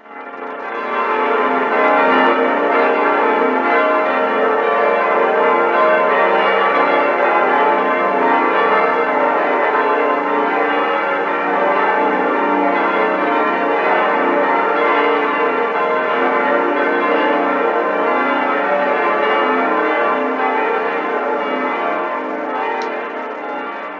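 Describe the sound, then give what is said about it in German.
Cathedral bells of Würzburg ring out for Christmas in a loud, continuous, dense peal of overlapping strokes that holds steady throughout, with no talking. “das sind die Glocken vom Dom zu Würzburg.”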